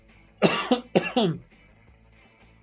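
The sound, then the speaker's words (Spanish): A person coughs in a short, harsh fit of a few coughs in quick succession, grouped into two main bursts, with no talk over them. “Buen timing para empezar a toser.”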